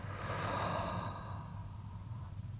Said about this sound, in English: I invite you to join me in three more breaths. So breathing in and out